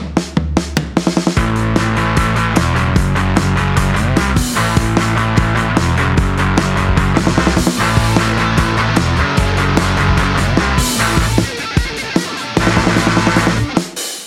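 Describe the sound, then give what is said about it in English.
A musical sting used as a segment break, full and loud, with a steady driving beat and sustained tones that play throughout without any talk, then stop abruptly. “There'll be musical stings that sound like this.”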